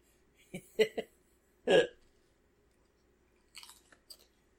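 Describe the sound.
Crunchy chewing of Extreme Pringles potato chips: a few sharp, crisp bites in separate bursts, one louder crunch in the middle, with quiet gaps between them.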